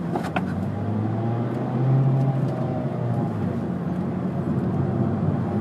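A used Ford Focus pulls away from a standstill, its engine a steady, loud drone that swells briefly, blended with continuous road noise.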